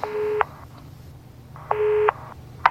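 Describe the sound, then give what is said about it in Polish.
A telephone dialed on speakerphone sounds as two sustained electronic tones separated by a quiet gap, with sharp beeps at their edges and a brief final beep. “Dzwonię. Dam na głośno mówiący.”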